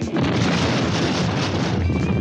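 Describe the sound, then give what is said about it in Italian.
Bomb explosion, with blood and debris described inside a car: a loud, dense, rumbling roar that starts abruptly and fills the whole clip without easing, with a thin whine rising near the end. “C'è stata la bomba!”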